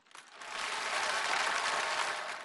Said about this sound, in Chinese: 您这一鼓掌啊，我这心里边是特别的 激动啊